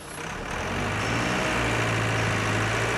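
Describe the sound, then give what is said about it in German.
Forklifts move shipped timber in a harbour, a low, steady engine drone with a deep idling hum that swells slightly at the start and then holds constant. “Im Hafen von Warren Point fahren Arbeiter gerade mit Gabelstaplern das per Schiff angelieferte Bauholz in eine große Halle”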